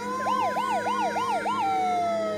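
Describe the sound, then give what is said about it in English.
Sirens and alarms played through loudspeakers placed around a sports complex: about five rising-and-falling wailing sweeps in quick succession, then a single long tone that slowly sinks in pitch, loud and steady. “Speakers were placed strategically throughout the complex, and through them, a mix of sirens and alarms,”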